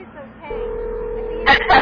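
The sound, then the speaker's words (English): Phone dialing for a cell phone call: a steady flat tone holds for about a second, then two short, bright keypad beeps follow. “Do you want to call him on his cell phone?”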